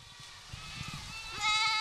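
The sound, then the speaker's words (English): Spanish goats bleat while roaming a field of waist-high vegetation in Mark Twain National Forest in the Missouri Ozarks. A low rustling bed gives way to a louder, sustained bleat near the end. “Dozens of Spanish goats are roaming around a field in the Mark Twain National Forest in the Missouri Ozarks.”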